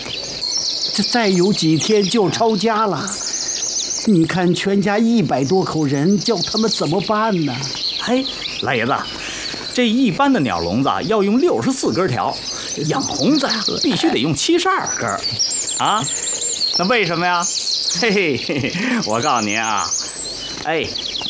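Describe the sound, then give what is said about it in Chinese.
A pair of hongzi songbirds chirp and trill in quick, high-pitched bursts, repeating many times throughout while men converse over the birdsong. “您瞧瞧，这是我新进的一对红子。哎呦，这鸟是太难养了啊，吃活食”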